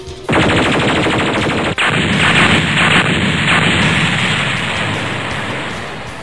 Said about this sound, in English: So we launched some countermeasures, and that seemed to do the trick. Launching countermeasures.